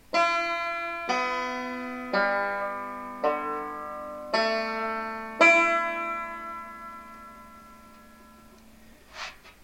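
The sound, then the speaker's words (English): Six single plucked notes ring out from a six-string guitar banjo with its low A and low E strings removed, played one string at a time. The notes are evenly spaced, each ringing bright and fading before the next. “I took a six-string guitar banjo and took off the bottom two strings, the low A and low E, so that the strings in order from 1 to 6 now sound like this.”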